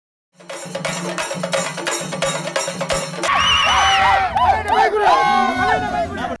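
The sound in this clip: Fans packed into a cinema celebrate the early-morning release of the Tamil film Ponniyin Selvan, dancing and singing. Loud music with a pounding beat gives way to a dense roar of crowd cheering and shouting.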